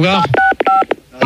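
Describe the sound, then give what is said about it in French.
Telephone keypad tones keyed by a caller trying to play a tune on the phone: two short, steady dual-pitched beeps sound between bursts of people talking. “ils ont qu'à essayer de nous faire un morceau avec leur téléphone.”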